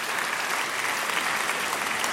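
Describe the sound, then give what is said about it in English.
An audience claps in a dense, steady burst of applause that stays at an even level from start to finish, with no voices rising above it. “please don't stop. I deserve every clap. I deserve the clap, please.”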